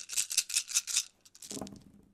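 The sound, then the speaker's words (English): Dice rattle in a quick run of about five even, bright shaking bursts, followed by a softer, lower tumbling clatter that fades out. “So let's roll the dice here and see where we're headed.”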